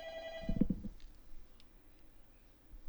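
An electronic telephone ringtone signals an incoming call: one short burst of bright, tonal rings at the very start, then near-quiet with faint background noise.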